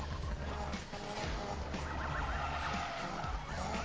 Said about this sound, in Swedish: De driftar lite till höger och vänster för att visa slide.